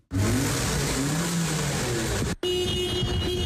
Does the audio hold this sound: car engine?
yes